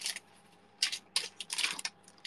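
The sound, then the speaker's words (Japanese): Paper rustling and sliding as postcards and mini cards are packed into a fan box, several short, crisp bursts of soft, faint noise separated by near-silence. “今、ファンボックス用のポストカードを入れました。あとはミニカード。”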